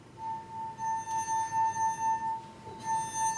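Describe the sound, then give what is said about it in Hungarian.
A sustained, pure ringing tone from a finger rubbed around the rim of a drinking glass, one of a set of six. The pitch stays steady while the loudness swells in gentle pulses, with no voices. “ha egy pohár falán az ujjunkat körbehúzzuk,”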